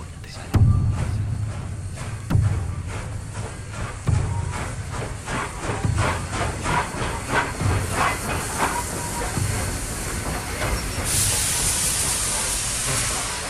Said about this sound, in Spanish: Yo voy contigo, tren trepidante, tren de la frontera.